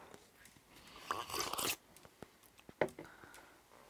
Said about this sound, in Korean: 지금 숟가락에 바나나를 얹어서 아메리카노 한 스푼을 떠서 같이 먹고 있는데